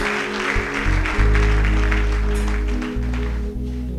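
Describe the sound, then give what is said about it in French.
A church audience applauds with sustained clapping. The applause runs over low, steady musical tones that shift in pitch a few times. “On va acclamer le Seigneur pour eux.”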